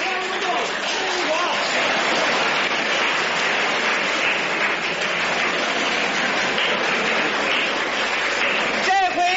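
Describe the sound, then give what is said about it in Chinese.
Spectators at a table tennis match applaud and cheer during a standing ovation, a thick, continuous roar of clapping and crowd noise that holds at a steady level for about nine seconds, slightly dull and muffled in tone. “庄则栋的高超球艺、充沛的体力、顽强的战斗意志和他惊人的速度，再一次博得了全场观众的起立欢呼”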